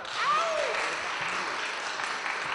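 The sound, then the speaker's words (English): Audience applause at a conference: a steady, dense wash of clapping that holds at an even level throughout, with no talk over it. “a big applause, big applause for Nick Farr.”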